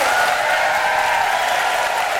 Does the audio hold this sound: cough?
no

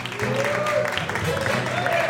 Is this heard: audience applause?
yes

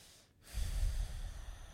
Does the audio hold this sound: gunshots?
no

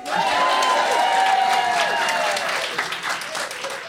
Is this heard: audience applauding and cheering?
yes

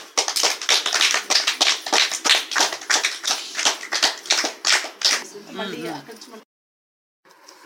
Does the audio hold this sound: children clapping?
yes

